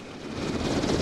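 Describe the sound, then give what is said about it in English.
A Black Hawk helicopter flying in Iraq, one of several ferrying the U.S. defense secretary's entourage, gives a steady, dense rushing roar for a brief moment, with no talking. “This is the sound of a Black Hawk helicopter, one of several used to ferry Defense Secretary Donald Rumsfeld and his entourage on their visit to Iraq last month.”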